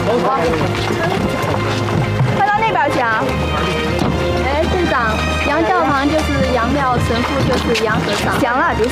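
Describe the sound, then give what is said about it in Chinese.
Hooves clop steadily as a horse-drawn cart is pulled up to unload a medical team's equipment, with several people talking and calling out over the hoofbeats throughout. “来，把马车拉过来，把装备卸下来，快。”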